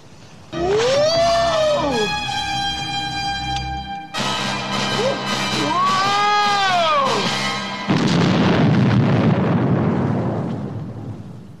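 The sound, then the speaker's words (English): A bomb explodes in a movie scene as it is thrown overboard. Several seconds of sustained, swooping tonal sounds give way to a loud, broad rumbling blast that slowly fades. “he throws them overboard as the bomb explodes. Boom!”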